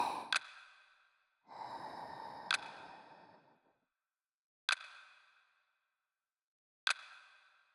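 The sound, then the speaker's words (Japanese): Slow breaths in and out during a guided relaxation exercise: soft, airy rushes of air, one long and drawn out, alongside a few sharp clicks, each with a short, fading tail. “吸って吐いて、”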